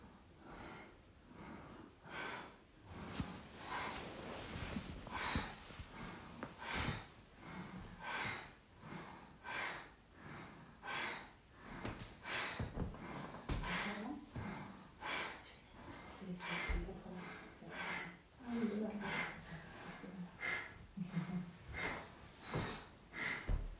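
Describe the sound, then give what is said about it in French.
Forceful bhastrika yoga breathing during a guided session: many rapid, rhythmic inhales and exhales, each a sharp, snorting rush of air through the nose, repeating steadily and fairly loud throughout. “Et puis là, on va mettre en place le souffle de Bastrika. Inspire, expire.”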